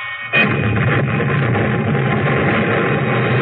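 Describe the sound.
An artillery gun fires: a sudden loud blast, then a dense, sustained roar that holds steady to the end.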